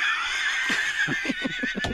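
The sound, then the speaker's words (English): Zebra braying: a steady, shrill, whinny-like tone runs throughout, broken by a rapid series of short, rhythmic lower pulses in the second half, loud and with no speech. “A zebra. Right in front of me.”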